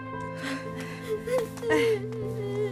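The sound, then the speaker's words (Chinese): A little girl whimpering and crying, soft wavering sobs and brief rising whines, faint over a steady tonal background. “不哭了啊，大孩子了，不哭了啊”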